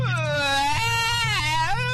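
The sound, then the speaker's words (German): A person imitates a baby crying with a continuous wavering wail that rises and falls in pitch, over a steady low hum. “Aber mal so richtiges Babygeheule kriegen wir jetzt auch noch hin.”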